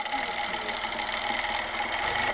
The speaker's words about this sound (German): In der Nähstube nebenan werden beschädigte Kostüme auch restauriert oder umgearbeitet. Die Maschine rattert.